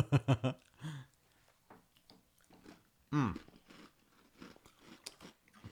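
Biting and chewing a crunchy coconut biscuit: a few quick, loud crunches open, then quieter chewing and a single strong crunching bite midway, followed by softer crackly mastication.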